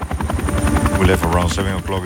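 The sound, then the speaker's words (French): Helicopter rotor chop from an early-morning flight in South America, beating in a rapid, steady rhythm over a low engine drone. It stays loud and continuous beneath a talking voice. “On est parti à 7h du matin en hélicoptère.”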